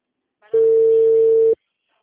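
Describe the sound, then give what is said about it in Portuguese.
A telephone dial tone sounds while a call is being placed: one steady, clear, loud tone about a second long, beginning and ending abruptly, followed by silence. “Tô ligando.”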